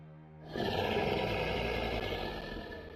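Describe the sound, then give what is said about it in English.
A giant roar from a flying beast carrying a soldier on its back in a video game bursts in after a short quiet lead-in, then holds as a loud, rough, sustained bellow that fades slightly at the end. “this beast with a soldier on top of it. Oh, I hate that. And it lets loose a giant roar”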